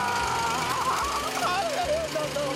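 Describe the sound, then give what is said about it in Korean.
An engine just fixed by hand runs with a steady, rhythmic low knocking pulse, with voices talking over it throughout. “시동 걸어 보겠습니다.”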